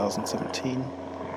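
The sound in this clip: An airplane flying overhead at dusk in rural Finland makes a low, steady droning hum under a man's speaking voice.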